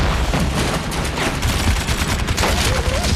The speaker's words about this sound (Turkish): Ateş eden yüksek hızlı Alman silahı.